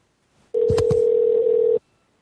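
A single steady, mid-pitched ringback tone sounds on a phone line while a call goes unanswered. It holds for just over a second, with a couple of clicks near its start.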